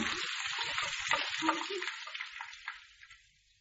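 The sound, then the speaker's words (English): Bacon frying in a pan gives off a steady, dense sizzling hiss with fine crackles, heard alone and gradually fading toward the end. “Lord help us, your bacon will be burnt to a frazzle.”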